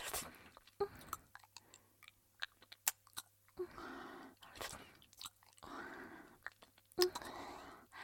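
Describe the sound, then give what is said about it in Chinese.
A child chews food while being fed, with many soft crunchy bites and wet mouth clicks in an irregular rhythm. The chewing is faint and close throughout. “那就多吃一点，知道吗？阿姨再继续喂你啊。”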